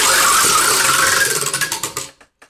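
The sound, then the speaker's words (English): A topic wheel spins with rapid ratcheting ticks that gradually slow and spread apart until it stops, then a couple of last isolated clicks. “We're going to spin the wheel, and as soon as that wheel hits the topic, we got 20 minutes to talk about that topic, but there's a catch.”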